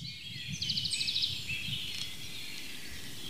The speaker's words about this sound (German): verschiedenste Arten von Singvögeln, haben Melodien, die sie vortragen, sehr abwechslungsreich und auf sehr unterschiedliche Art und Weise, begleiten uns die ganze Zeit, seitdem wir hier unterwegs sind.